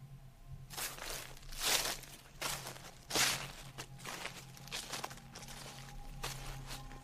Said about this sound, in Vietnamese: Chỉ nghe tiếng giày đi trên cỏ loạt xà loạt xoạt.